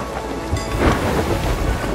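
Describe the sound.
Thunderstorm with rain in a pirate video game: loud, steady rain hiss with a low thunder rumble that swells in the middle, with no voices.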